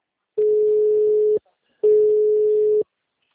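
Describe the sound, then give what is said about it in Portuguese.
Telephone ringback tones play while a call is being placed: two steady, even, mid-pitched tones, each about a second long, separated by a brief pause, with nothing else around them. “Tô ligando pra ele, da Una.”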